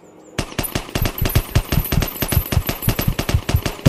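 Rapid machine gun fire from a weapon loaded with a fresh large magazine: after a brief quiet start, a long unbroken string of many loud, sharp shots comes in quick, even succession.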